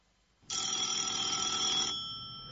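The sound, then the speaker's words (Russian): A telephone bell rings in one continuous burst of rapid metallic ringing that stops and leaves a fading tone. The sound is fairly faint. “Следующий звонок был от Босса.”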